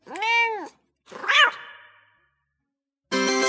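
Cats meow in a video game: two clear, distinct meows, the second rougher and trailing off, then after a pause a third buzzy, harsher cat call that is cut off at the end.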